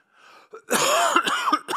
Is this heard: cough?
yes